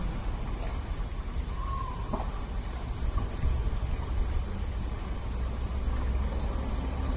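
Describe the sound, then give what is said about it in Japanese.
Cicadas sing in a residential area, a continuous high, shrill drone that holds steady throughout over a low background rumble. “なかなか住宅地でセミの声だけ聞くってのは難しいですね。”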